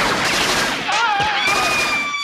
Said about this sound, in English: They're shooting! They're shooting! Somebody's shooting!